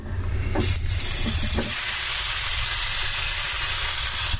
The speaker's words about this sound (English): I'm going to raise the lid. It's going to stop for a second. I'm going to put the pork chops on.